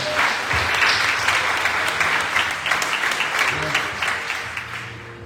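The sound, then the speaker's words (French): A church audience applauds to acclaim the Lord during a worship service, with dense, sustained clapping from many hands throughout and speech over it. “J'aime pas ta manière d'acclamer. Il dit d'acclamer le Seigneur.”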